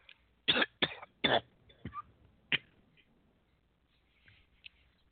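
A person coughs and chokes while eating: a series of harsh, rasping coughs over the first few seconds, then only faint scattered rustles.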